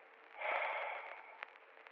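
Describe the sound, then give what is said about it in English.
A slow, deep breath through the nose, a soft airy swell that builds, peaks and gradually fades, followed by a couple of faint clicks, quiet and alone. “Take a deep breath in through the nose. Exhale slowly through the mouth.”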